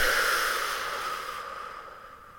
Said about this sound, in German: durch die Nase ein, durch den Mund aus und ausatmen.